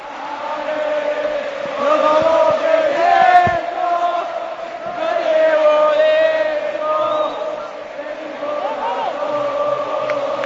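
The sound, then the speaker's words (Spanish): UD Las Palmas players and fans sing together in the Gran Canaria stadium, a loud massed chant of many voices that swells in waves and eases slightly toward the end. “Los jugadores cantando al son también del público, de la afición del conjunto amarillo, con las banderas ondeando al cielo de la isla de Gran Canaria, en este estadio de Gran Canaria”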